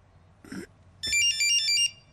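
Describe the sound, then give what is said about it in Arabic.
A mobile phone rings with a bright electronic melody of quick, alternating high notes lasting under a second. A brief softer sound comes just before it. “التليفون مش لإلك؟ لا مش إلي. لا الصوت جاي من هون. جاي الصوت من هون.”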